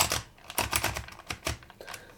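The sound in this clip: Rapid clicking from a label maker's round lettering drum as it is turned to select a character for the tape. It makes a fast, irregular run of many small ratcheting clicks at low volume, with no talk.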